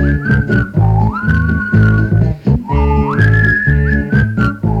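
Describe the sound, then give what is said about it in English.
Whistling of a tune in clear, held notes that jump up and down in pitch, loud over a steady, rhythmic low backing beat. “What's the whistling part here?”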